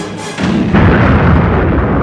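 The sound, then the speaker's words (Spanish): A space station explodes after its main reactor is hit, a deep, loud rumbling roar that swells in two stages and then holds as a heavy, sustained blast. “Alcanzada en su reactor principal, la Estrella de la Muerte estalla en un impresionante fogonazo que llena el espacio de fragmentos incandescentes.”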